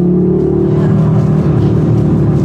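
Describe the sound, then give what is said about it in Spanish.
A sporty hot-hatch hatchback's engine drones while driving, heard from inside the cabin with sound insulation removed. It makes a steady, fairly loud low hum with strong harmonics and slight swells, and no one speaks. “El sonido del motor es una locura. Le quitaron 4 kilos de aislantes para que justo el sonido del motor se meta al habitáculo”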